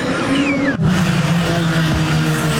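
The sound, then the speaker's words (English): Indy race cars roar on the track at the Honda Indy in Markham. The engine drone is loud and continuous, with a whining tone that drops in pitch as a car passes, then more sustained engine roar. “The sheer power of the cars, a big draw to the Honda Dealers Indy in Markham on Saturday for fans of all ages.”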